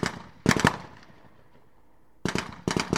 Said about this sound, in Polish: Tego dnia na poligonie Biedrusko strzały padły nieraz. Najpierw podczas zawodów strzeleckich żołnierze Wojsk Obrony Terytorialnej strzelali z doskonale znanego im karabinka MSBS Grot